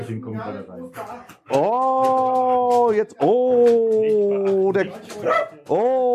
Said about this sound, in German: Oh, jetzt kommen die, Hunde.